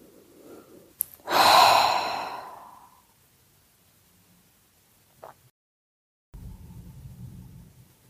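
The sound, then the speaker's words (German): A single loud exhalation through the mouth, part of a relaxation breathing exercise, gives a strong breathy rush that fades over about two seconds, followed by quiet and a few soft sounds. “Befreie dich hier von allem, was dich beschwert durch diese laute Ausatmung durch den Mund.”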